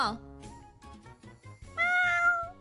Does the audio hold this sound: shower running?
no